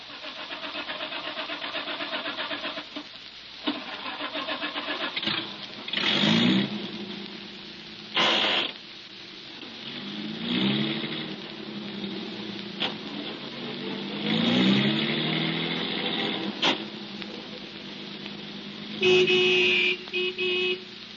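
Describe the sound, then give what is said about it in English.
A car engine starts and the car drives away toward a highway. The engine catches and runs loudly, and its pitch sweeps up and down through several revs over a steady mechanical drone, with no voices. “We drove away from Willow Springs, got out onto the highway, and started toward town.”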